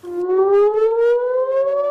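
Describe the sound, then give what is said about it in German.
Warning sirens wail in northern Israel, a loud steady tone that climbs slowly in pitch without a break and sounds alone. “Von Waffenruhe ist im Norden Israels seit Wochen nichts zu spüren. Immer wieder heulen die wahren Sirenen.”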